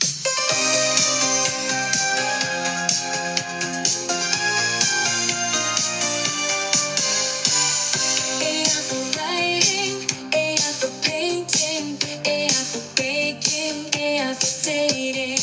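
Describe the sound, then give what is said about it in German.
An AI-generated driving 1980s disco-pop song plays loud and continuous, with sustained melodic lines over a steady rhythmic beat that grows more pronounced in the second half. “Ich kann mittlerweile auch mit einigen wenigen Sätzen sogar einen Popsong generieren lassen.”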